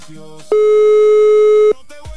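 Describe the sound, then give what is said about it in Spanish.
A telephone line rings on an outgoing call: one steady, mid-pitched electronic tone holds for about a second, loud and even, with brief faint sounds before and after it. “Siguiente llamada, mi secre, dele play. Ahí está timbrando.”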